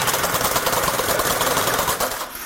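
A knitting machine runs with a fast, even mechanical rattle and clatter, knitting two pieces at once. It stays loud and steady, then eases slightly near the end.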